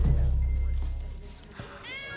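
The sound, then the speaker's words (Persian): Frightened cat meowing, a short high-pitched meow near the end over a low, steady rumble. “گربم ترسیده، میخوام ببرمش بالا.”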